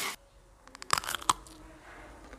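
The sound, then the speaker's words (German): Biting into a Bockwurst sausage with mustard: a couple of sharp, snapping crunches close together, brief and faint, trailing into soft chewing noise. “Wow, also auf den Sound bin ich echt gespannt. Lecker, mit dem Senf. Ja, lecker so eine Bocki.”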